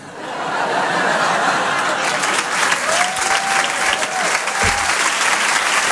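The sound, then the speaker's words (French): Comedy club audience applauding a comedian, a thick, continuous roar of clapping hands that holds steady, with a whistle ringing out above it partway through. “Bérangère Krief, on peut l'applaudir très fort.”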